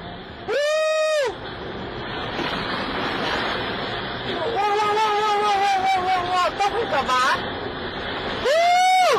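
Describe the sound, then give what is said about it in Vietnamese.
Tornado winds roar at a market and tear off roofs, captured by a car dashcam. The dense, surf-like rush runs without a break, and voices inside the car cry out in surprise several times. “Đoạn video được camera hành trình trên một ô tô ghi lại hôm 28 tháng 7 cho thấy cảnh lốc xoáy thổi tung mái nhà, hất tung nhiều vật dụng tại một khu chợ”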